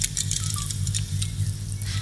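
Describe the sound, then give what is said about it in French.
Rain falling as light, scattered patter of drops over a steady low hum, faint and irregular throughout with no voices. “Il faut s'arrêter un instant. Ça pleut.”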